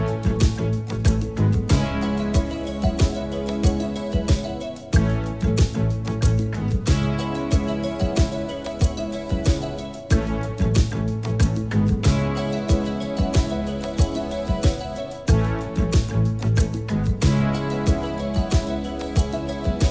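A band's hit pop-rock song plays loud and continuous, driven by a steady drum beat under layered keyboards and percussion.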